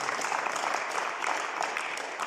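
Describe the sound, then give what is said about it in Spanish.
Applause from a church audience: a dense, sustained wash of many hands clapping, loud and even throughout, with no voices over it. “Déselo al Rey, por favor, ese aplauso.”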